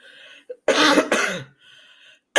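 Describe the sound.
Two loud, harsh coughs in quick succession from a person feeling unwell, with faint tonal sound before and after them.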